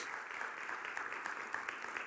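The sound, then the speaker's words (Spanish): Applause from an audience at a religious gathering: a dense, steady patter of many clapping hands that holds evenly for about two seconds, with no single voice standing out. “Así que denle un aplauso al Señor.”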